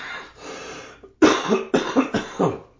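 Coughing and throat clearing from someone with a tickle in the throat: a soft raspy clearing, then a loud fit of several sharp, rapid coughs in uneven bursts.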